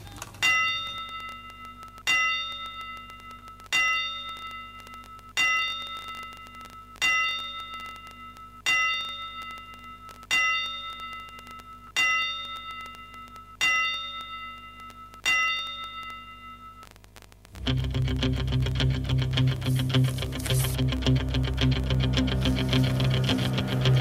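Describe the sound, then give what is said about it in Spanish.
A bell tolls slowly in a memorial tribute within a boxing program. The strikes ring out at steady intervals, each decaying into a long metallic hum, before a loud, dense sound abruptly takes over at the end. “desde Boxeo Planeta le dedicamos estas 10 campanadas para él.”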